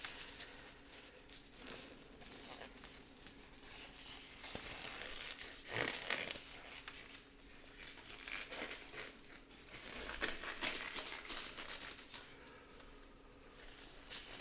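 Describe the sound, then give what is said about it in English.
Protective gloves are pulled on before handling trading cards, making faint, continuous crinkling and rustling with soft plastic-like crackles throughout. “Let me get these gloves on, protect these cards.”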